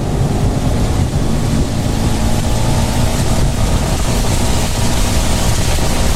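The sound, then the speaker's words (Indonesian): A vehicle speeds along in the rain, making a loud, unbroken roar of road and rain noise that stays dense and even throughout, with no talking. “Hujan nih, aku ngebut ya.”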